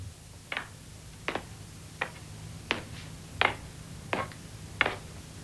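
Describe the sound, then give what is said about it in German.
A clock ticking, seven crisp, evenly spaced ticks at a slow, steady pace over a low, constant hum, with no voices. “Tick, tock, tick, tock.”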